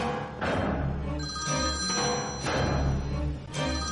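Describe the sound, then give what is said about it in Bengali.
A mobile phone rings in a trouser pocket, giving a loud electronic ringtone of steady tonal notes that repeats in regular pulses about once a second, with no talk. “প্যান্টের pocket মোবাইলটায় যেন কার call এসেছে। ফোনটা বেজে উঠল।”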